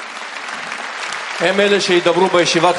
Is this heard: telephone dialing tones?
no